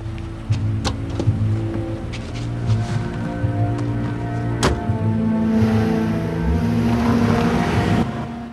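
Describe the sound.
A 4x4 vehicle driving away down a road: a steady low engine rumble with broad tyre and road noise, holding a fairly even level throughout, with a few brief clicks and knocks and no voices.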